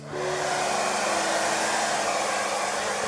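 A hair dryer blows hair dry, switching on abruptly and then holding a loud, steady whirring roar with a faint tonal hum, alone without voices.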